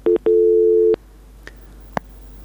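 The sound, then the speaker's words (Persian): Telephone tones after a call drops: two short beeps, then one longer steady mid-pitched tone that cuts off, followed by two faint clicks on the line. “بله فکر کوم له دې اوریدونکو سره مو هم تماس پرې شو.”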